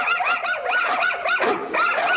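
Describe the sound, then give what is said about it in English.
Several puppies and a large, squat bulldog howl together in a pet store window, their overlapping wavering cries rising and falling in a loud, continuous chorus. “In a pet store window, several puppies and a large, squat bulldog join the chorus.”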